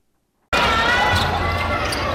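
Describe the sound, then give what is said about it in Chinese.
A basketball is dribbled on a court during a youth tournament. The sound starts abruptly after a brief silence and continues loudly under a steady wash of crowd noise and voices. “篮球场上传来运球声与喝彩声，球员在场上尽情挥汗拼搏，展现高昂斗志。”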